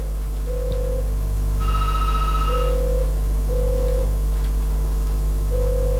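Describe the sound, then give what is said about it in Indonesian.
A telephone rings with an incoming call during a morning call-in program. Short steady electronic beeps repeat at intervals, with one longer, brighter tone between them, all over a constant low hum. “Sudah ada tampaknya nih di telepon ya.”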